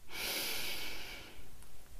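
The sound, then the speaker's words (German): A deep breath in and out: a long, airy inhale followed by a shorter breathy release, both soft and close, with no talk. “nimm einen tiefen Atemzug. Atme ein”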